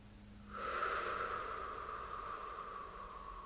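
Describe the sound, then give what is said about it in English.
A group takes a deep breath together at a hugging gathering. After a short silence comes one long, sustained breathy hiss that fades slightly toward the end. “So let's grab these shoulders. Imagine we are all one body of people, all connected. And let's just take a deep breath as we connect as one.”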